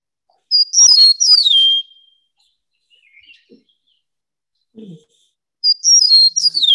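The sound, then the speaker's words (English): Eastern meadowlark singing in spring: two loud phrases of high, clear, slurred whistles that slide downward in pitch, separated by a quiet gap holding a few faint, low sounds. “Here's the Eastern meadowlark. And just so you know, it says spring of the year. So see if you agree with this. Eastern meadowlark.”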